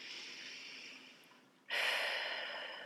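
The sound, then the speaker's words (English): A deep breath taken before a group blessing: a steady, airy breath sound that drops quieter, then swells abruptly into a louder, fuller rush of air that carries to the end. “Everyone take a deep breath.”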